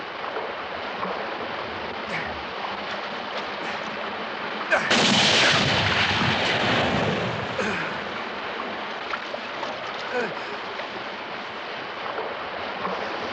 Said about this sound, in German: Hast du nur auf die Hand geschossen?